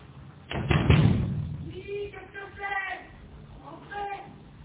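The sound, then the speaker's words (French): Hard knocking on the glass door of a concierge's lodge: a short burst of heavy thumping knocks, then quieter sounds with a voice. “Aucun effet. Il frappe plus fort.”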